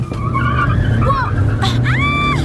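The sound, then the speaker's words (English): A car skids off a road into a wheat field, its tires screeching over a steady engine rumble, with voices calling out over the noise. “We find ourselves driving through a wheat field.”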